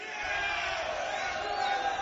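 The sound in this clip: Crowd noise fills a room in downtown Los Angeles: a dense, steady roar of many mingled voices that holds at a constant loud level throughout.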